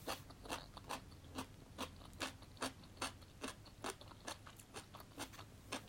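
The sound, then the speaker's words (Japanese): Crisp crunching as someone bites and chews crunchy daikon radish: many sharp, dry crackles in a steady, even rhythm, quiet overall. “ちょっとパリパリ大根から食べよう一発目からパリパリ大根食べるっていうね”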